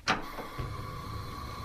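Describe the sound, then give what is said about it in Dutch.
A gas stove is switched on before spices are roasted: a sharp click is followed by a faint, steady low hum and hiss that continue quietly. “Nou, eerst even het gas aan.”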